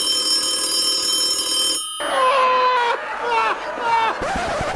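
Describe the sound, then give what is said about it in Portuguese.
An outgoing phone call's ringing tone sounds steadily for under two seconds, then cuts off as voices talk. “Então, vou fazer uma ligação aqui agora”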